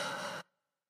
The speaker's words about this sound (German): Und dann atme nochmal tief ein und aus.